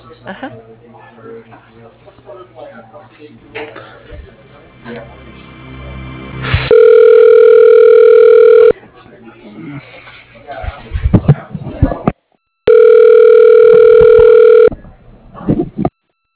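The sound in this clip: Telephone ringback on a call being transferred: two long, steady, mid-pitched tones about six seconds apart, each lasting around two seconds. Talk and line noise come before and between the tones.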